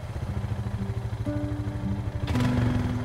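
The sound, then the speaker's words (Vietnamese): Motorbike taxi engine in the rain as the bike wobbles and starts rolling: a steady, low, throbbing putter whose pitch steps up twice and grows louder near the end. “Chiếc xe loạng choạng mấy cái bắt đầu lăn bánh.”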